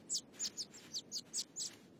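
A small bird chirps in distress, about seven short, high, bright chirps spaced evenly over two seconds, loud against a quiet background with no voices.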